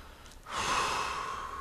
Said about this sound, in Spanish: Inhala bien profundo